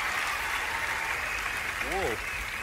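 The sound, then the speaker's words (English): An audience gives a standing ovation, a thick, steady roar of clapping that runs throughout, with a single voice cheering briefly, its pitch rising and falling, near the end. “Standing ovation, and I'm sure some tears in the audience.”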